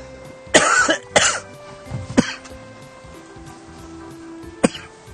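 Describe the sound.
A person with a scratchy throat coughs several times: two strong coughs close together, then a few lighter ones. No speech.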